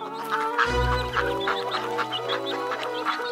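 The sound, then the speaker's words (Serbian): Chickens, ducks and geese squawk in alarm as they jump from their nests, with a dense overlap of clucks, quacks and honks. The flock noise is loud and unbroken throughout. “Sve kokoške, patke i guske poskakaše preplašeno iz svojih gnezda. Nasade komešanje, buka, vika i cika.”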